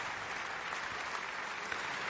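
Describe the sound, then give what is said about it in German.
An audience applauds the singer of the title role at an opera performance. The clapping is dense and continuous, holding at a steady level throughout, with no voices standing out. “Das ist der Applaus für Georg Nigel, der hier die Titelrolle gesungen hat.”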